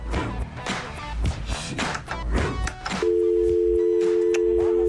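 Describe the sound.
A steady telephone line tone follows a call-in caller hanging up. It cuts in after about three seconds of busier mixed sound and holds at an even pitch and level to the end.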